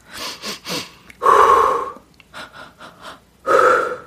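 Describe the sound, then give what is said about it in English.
Calming breathing exercise: three quick, sharp sniffing breaths in, then one long, loud breath out. The pattern repeats with four short inhalations and another long exhalation. “it's three or four short breaths in and one big breath out.”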